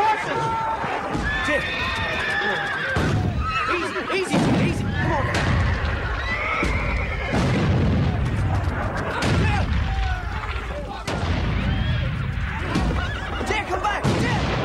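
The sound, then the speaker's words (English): Frightened horses neigh repeatedly amid explosions, with shrill, wavering whinnies rising over heavy booming blasts. The sound stays loud and dense throughout. “Explosions burst around the horses.”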